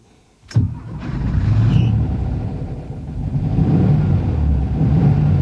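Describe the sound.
A car engine cranks and catches with a sharp onset, then settles into a steady low rumble that continues and swells slightly as the car drives off, with no talk.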